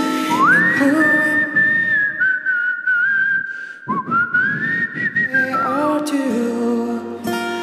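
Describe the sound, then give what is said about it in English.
A person whistles a melody, holding long sustained notes joined by smooth upward and downward slides. The whistling is fairly loud and clear, with no talking. “And then this turns into a whistling version of me.”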